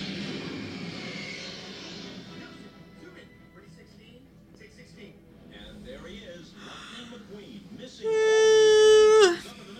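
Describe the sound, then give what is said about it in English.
One person gives a loud, drawn-out voiced yawn near the end, a single sustained tone of about a second. Quieter background talk and murmur come before it. “Just yawning.”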